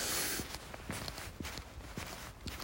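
Footsteps of a person walking outdoors on a path beside a bike path, a steady series of soft, regular steps under a constant hiss.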